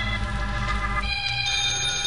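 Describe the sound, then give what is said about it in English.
A telephone ringing: a sustained, bright bell-like tone with steady overtones that shifts slightly partway through, heard alone without talk. “My phone was ringing when I unlocked the door.”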